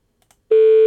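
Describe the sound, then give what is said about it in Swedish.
A telephone tone sounds after a number is dialed: a couple of faint ticks, then a loud, steady single-pitched tone that starts partway through and holds without a break. “Ska jag slå in numret bara? Testar vi ringa Anki?”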